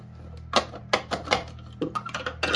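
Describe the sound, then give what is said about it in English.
Clattering knocks as the contents of a food processor bowl are dumped onto potatoes for Greek roasted leg of lamb and potatoes, a series of sharp taps and clunks that grow quicker toward the end. “your food processor bowl and dump all the contents in the potatoes.”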